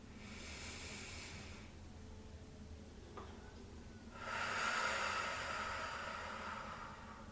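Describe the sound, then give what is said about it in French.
Deep breathing in a belly-breathing exercise: a steady breath in, a short pause with a faint click, then a long, louder breath out through nose and throat, with no talking. “J'inspire, je gonfle. J'expire, je dégonfle. Une dernière fois.”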